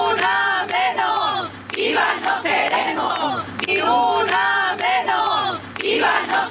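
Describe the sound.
Women's voices chant together in loud, rhythmic repeated phrases at a night-time protest march, the crowd's call rising and breaking off in regular cycles with a sustained group roar throughout.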